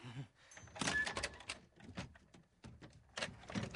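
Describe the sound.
A pirate's sea chest being opened, packed with clothes and smelling of tar and tobacco: a faint run of irregular knocks, scrapes and rustling bursts, with no talk.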